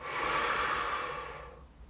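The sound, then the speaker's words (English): A deep-breathing exercise: one long, loud, airy breath that holds steady for over a second, then fades away. “Really force the ribs out, drive the air in the body, fill the head up, exhale.”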